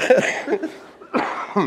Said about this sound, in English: Pardon me, I am just getting over a cold, so try not to cough too much this morning.